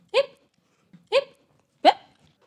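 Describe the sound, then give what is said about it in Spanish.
Three sharp hiccups from a lamb that gulped down a carrot too fast. Each is a short, bright, squeaky gulp, evenly spaced about a second apart. They are fairly loud and heard alone, with the last one slightly higher. “La ovejita se zampó la zanahoria tan rápido que le entró hipo.”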